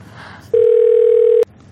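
A phone call's ringing tone: a single steady, mid-pitched tone held for about a second over a low background hiss, then it cuts off.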